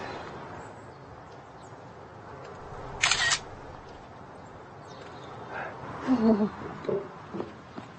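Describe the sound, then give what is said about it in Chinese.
A camera shutter snaps once as a photo is taken: a single sharp, brief click standing out against quiet background, with faint indistinct sounds afterward. “你帮我拍张照吧。”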